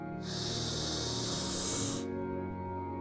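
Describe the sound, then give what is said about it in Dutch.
A slow, deep breath drawn in during a guided breathing exercise: a steady, airy hiss that lasts about two seconds and then stops, leaving near silence. No talk is heard. “Hou even je ademhaling vast en adem In.”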